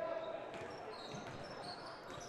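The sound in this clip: A basketball is dribbled during a high school boys' game between Exeter and Daniel Boone. A few faint, dull bounces sound beneath a busy gym background.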